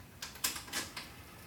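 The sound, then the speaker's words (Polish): A cassette tape recorder's reverse button being pressed gives a few faint, sharp mechanical clicks spaced over a second and a half, with no voices. “To była strona A, przepraszam. Teraz nacisnę rewers.”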